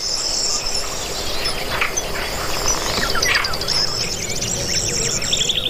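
High, piercing kingfisher calls from a family with fledglings that are still being fed and taught to fish by their parents: repeated thin chirps over a steady background hiss.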